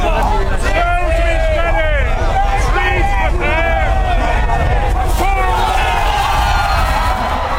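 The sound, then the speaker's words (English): A crowd gathers at the start of the annual cheese rolling race on Cooper's Hill in Gloucestershire, where runners chase a wheel of Double Gloucester. Dense, loud babble of many voices mixes with shouts and whoops throughout. “That is the sound of the start of the Cooper's Hill cheese roll in Gloucestershire.”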